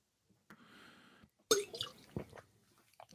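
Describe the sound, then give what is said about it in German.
A person takes a quick drink partway through a talk. A soft rustle comes first, then a few wet gulps and swallowing sounds with small mouth clicks. “Entschuldigung, muss man was trinken kurz? Ja.”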